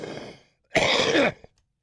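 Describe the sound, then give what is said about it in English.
A harsh, phlegmy throat clearing: one rough rasping burst of about half a second, preceded by a quieter, brief sound and followed by a short faint click. “Well, I needed to bring up some phlegm, too, I thought I'd do that on the air.”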